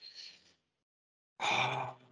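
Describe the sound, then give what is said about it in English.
A person breathes in deeply, showing how smokers draw on a pretend cigarette. A short, soft breath comes first, then a pause, then a louder, longer breath. “when they smoke a cigarette, they'll take a really deep breath with it. They'll take a puff, and then they'll go”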